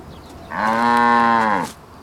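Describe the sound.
A cow moos by a white metal gate in one loud, drawn-out, nasal call of a little over a second, with quiet surroundings before and after.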